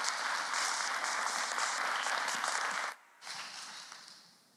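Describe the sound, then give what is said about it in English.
A church audience applauds a speaker invited up to share her story, a dense, steady wash of clapping that dips briefly near the end, swells again, then fades away. “So would you give Cheryl Sheridan a warm Valleybrook welcome as she comes and shares her story?”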